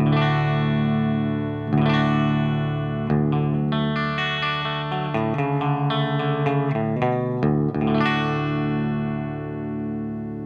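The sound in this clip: Electric guitar on the bridge pickup, played through the V4 with a flat EQ: a run of ringing chords and single notes with a few sharp strummed attacks, holding a steady, full level throughout.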